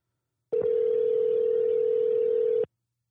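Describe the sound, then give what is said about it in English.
A telephone call to an office extension produces a single steady line tone that holds one even mid pitch for about two seconds, then cuts off abruptly, loud and alone. “I got to call into his office and dial an extension”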